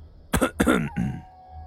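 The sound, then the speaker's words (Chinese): A soft cough, like a gentle throat-clearing, in a quiet indoor scene: a few short, muffled, throaty bursts close together, then silence. “包拯突然轻轻地咳嗽了一声”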